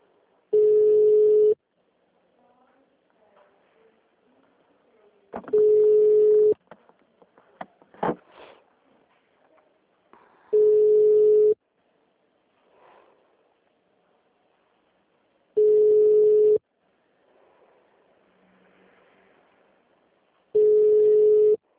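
Telephone line tones play while a call is transferred: five steady, mid-pitched beeps, each about a second long and evenly spaced, with faint rustling and a sniff between them.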